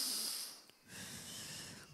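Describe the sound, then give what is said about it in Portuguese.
Slow, deep breathing, with a soft airy hiss, a brief pause, then a longer, steady breath let out gradually, all quiet. “E ele respira fundo, filha. Vai soltando devagarzinho. Vai, respira mais.”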